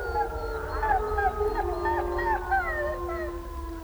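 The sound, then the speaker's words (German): Wolves howl in a chorus of several overlapping, long, wavering tones that rise and fall in pitch at different times, sustained without a break across the whole stretch. “Eine zweite Methode der Reviermarkierung ist das Heulen.”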